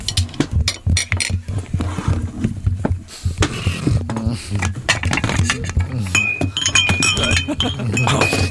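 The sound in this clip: Clinking of glass and dishes, made as foley by a sound-effects artist acting out someone setting off to fetch sweets for a brainstorming group. Many quick chinks and rattles, fairly loud, with voices underneath.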